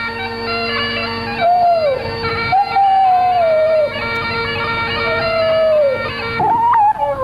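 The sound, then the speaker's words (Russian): A dog howls in long, wavering cries over sustained instrumental music. A few drawn-out howls slide down in pitch between the steady notes. “Почему твой Монморанси воет, когда я играю?”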